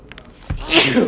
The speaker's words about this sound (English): I regret not taking my allergy medication this morning. That's part of the allergy medication. You only remember when you start sneezing.